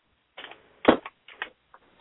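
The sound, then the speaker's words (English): Typing on a computer keyboard: a few short bursts of crisp key clicks with brief gaps between them, one keystroke near the middle noticeably louder. “Okay, so I just typed Jennifer.”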